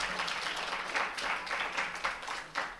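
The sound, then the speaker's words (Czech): A church gathering applauds to welcome visiting guests. Dense, lively clapping from many people keeps up throughout, swelling and easing in loudness a few times. “Takže je srdečně vítáme, myslím, že můžeme zatleskat.”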